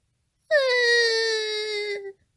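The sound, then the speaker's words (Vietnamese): A little girl crying loudly: one sustained, high, tonal wail of a bit under two seconds that holds steady and then falls slightly in pitch as it trails off. “Cô bé càng khóc to hơn.”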